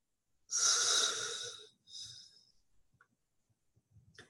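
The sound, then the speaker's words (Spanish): Forceful breaths out during a guided breathing exercise: one long, loud, hissing exhale, then a shorter, weaker one, followed by a few faint breathy puffs. “Exhala y saca, saca, saca, saca, saca. Exhala, exhala, exhala, exhala.”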